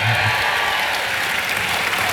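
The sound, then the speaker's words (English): Crowd cheering and applauding, a loud, continuous roar of clapping and voices that holds steady throughout. “A cheer. Come on.”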